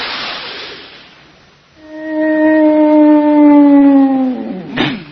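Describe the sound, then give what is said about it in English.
A human voice imitates a leopard's cry: after a breathy hiss, a single sustained, howl-like wail holds for several seconds with a slowly falling pitch, ending in a short, sharp burst. “The leopard's cry is entirely different, you know. As I explained to you in there, the leopard's cry goes like this.”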